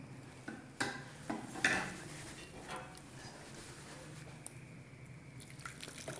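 Water splashes and drips into a cooking pot of meat. A few sharp clinks of metal and pot stand out early, and the rest is quieter dribbling and faint clatter.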